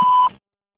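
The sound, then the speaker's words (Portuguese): An answering machine sounds a single short, clean electronic beep before a message is recorded. It is a steady mid-pitched tone that stops abruptly and leaves silence. “Alô. Por favor, deixe sua mensagem após o sinal.”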